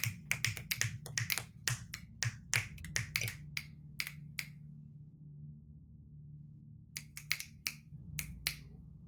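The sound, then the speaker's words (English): Finger snapping: many sharp, crisp snaps in a quick, uneven run, then a pause, then a few more snaps. “Oh, that's what snapping sounds like.”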